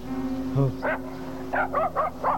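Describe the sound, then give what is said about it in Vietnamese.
Dogs bark in a rural village during a raid by soldiers, giving a quick run of about five sharp, mid-pitched barks over a steady low hum. “Chó sủa quá, chắc tụi nó đi ruồng đó.”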